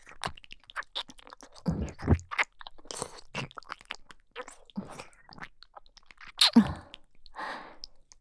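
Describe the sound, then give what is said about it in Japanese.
Kissing sounds made at the ear, many moist lip smacks and soft wet clicks at an irregular pace, some louder and fuller than others, with no talk over them. “愛おしいご主人様のお耳と口づけをさせていただきますね。”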